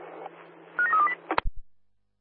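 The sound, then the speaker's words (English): Telephone keypad dialing tones, a quick run of a few bright beeps over a steady line hum, followed by a couple of low clicks before the line goes silent. “you're dialing away now”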